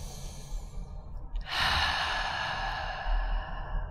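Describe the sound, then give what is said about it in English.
A deep breath is drawn in quietly through the nose, then let out through the mouth in one long, airy exhale of about two seconds, with no talk. “I would like you to take 3 deep breaths in through your nose, out through your mouth. Letting go.”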